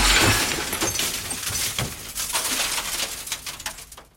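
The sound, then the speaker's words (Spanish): A mirror smashed, its glass shattering in a loud burst that becomes a long spray of scattered tinkling and crackling fragments, slowly dying away. “Voy a romper este espejo, que me tengo muy visto.”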